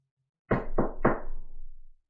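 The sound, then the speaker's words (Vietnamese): Three firm knocks on an office door in quick, even succession, each a solid low thud with a short ringing tail, alone without voices. “Âm thanh tiếng đập cửa vang lên.”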